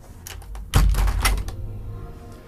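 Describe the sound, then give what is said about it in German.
A window is pushed further open, producing a rattling run of scrapes and knocks with a heavy low thump in the middle, then settling into steadier, quieter background noise. “Denn wie ihr Folgendes hört, ich werde mal das Fenster ein bisschen weiter aufmachen.”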